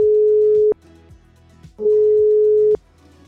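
A telephone ringback tone plays while an outgoing call is placed: two long, steady low beeps separated by a short pause, the first already sounding at the start.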